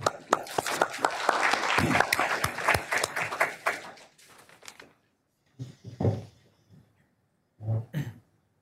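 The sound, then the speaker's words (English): Audience applause welcomes a speaker to the podium at a talk on oil and gas export restrictions, with brisk clapping that fades out midway and is followed by a few throat clearings and coughs. “So let me ask you to help me welcome Mark to the podium.”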